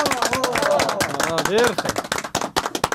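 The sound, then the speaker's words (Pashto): Audience clapping for a correct answer in a group quiz game, many sharp, uneven claps mixed with a loud voice talking over them. “بالکل سم جواب دی راکل، چکچک ورته وهئ.”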